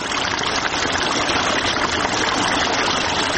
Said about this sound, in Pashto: سیف الله د ترینکوټ ښار اړوند د سپیدخار په سیمه کې د انارو پر باغ اوبه لګوي.